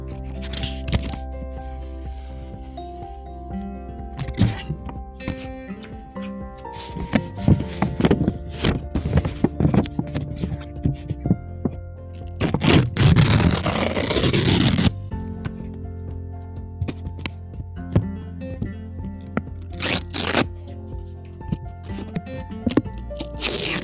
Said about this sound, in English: Now little sticky note ASMR.